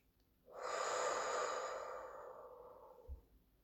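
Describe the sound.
One slow, calm breath, a long soft exhale that swells quickly, holds airy and steady, then fades away gradually before a brief quiet pause.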